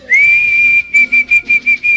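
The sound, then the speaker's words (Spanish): A person whistles to call partridges: a high, clear whistle held for most of a second, followed by a quick string of short, repeated whistled notes at the same pitch, with no talking. “¿Y cómo silbaban a las perdices? Eso, yo le silbaba,”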